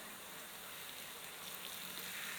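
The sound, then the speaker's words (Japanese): Warm water poured to rinse a person during bathing care, a soft, steady gushing hiss that runs evenly throughout, faint and with no voices. “これぐらいで熱くないかな。流しますね。熱くないですか？”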